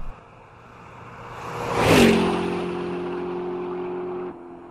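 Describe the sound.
A motorbike engine revs and speeds away: a droning roar swells to a loud peak midway, then settles into a steady humming tone before cutting out abruptly.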